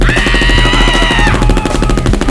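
A barrage of 9mm gunfire rattles out as a dense, loud, unbroken stream of rapid shots, with a higher ringing tone over the first half.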